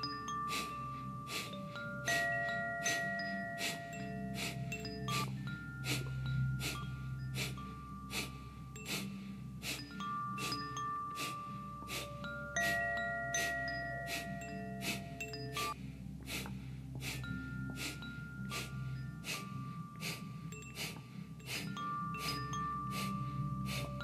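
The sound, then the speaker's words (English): Rapid, forceful yogic breath of fire (Kapalabhati pranayama), with sharp exhalations repeating in a fast, steady rhythm for the whole stretch over sustained background music. “so find your breath and breathe it all the way out. You're going to inhale 3/4, breath of fire.”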